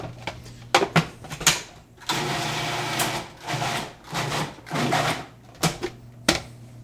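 A food processor pulses chopped raw garlic cloves: sharp clicks at first, then a few short whirring bursts with brief pauses between them, then more clicks to finish.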